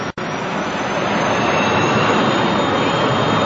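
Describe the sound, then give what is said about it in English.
A Learjet air rescue jet thunders down the runway on takeoff at Zurich Airport. Its engines give a dense, steady roar with a thin high whine, loud and unbroken apart from a split-second dip at the start. “Zurich Airport, and perhaps as you can hear from the noise in the background, the Learjet of the Swiss Air Rescue Guard is now barreling down the runway here”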